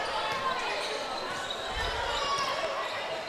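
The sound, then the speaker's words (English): A basketball is dribbled on the court during a women's basketball game, soft thuds half buried in a steady wash of crowd noise. “Mitchell dribbles toward the right side.”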